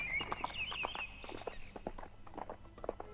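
Faint horse hooves clip-clop in a loose, steady rhythm as a rider leaves on a foggy morning, with a thin high bird call over the first second.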